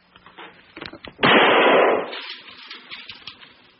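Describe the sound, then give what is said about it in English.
A single gunshot fired into a ceiling, from a 1968 documentary about jazz bassist Charles Mingus facing eviction: one loud, noisy blast lasting under a second, set between quieter scattered sounds before and after it. “A 1968 documentary reveals how, when threatened with eviction, he picked up a gun and shot a hole in his own ceiling.”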